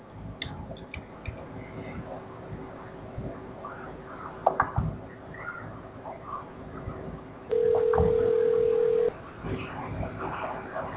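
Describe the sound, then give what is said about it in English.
A telephone dials out over a noisy, muffled line full of hiss and faint clicks, then a steady single tone sounds for about a second and a half before the hiss returns. “I'm going to try and dial out once again and see if I can get an answer.”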